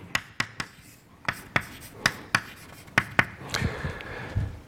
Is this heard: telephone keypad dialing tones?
no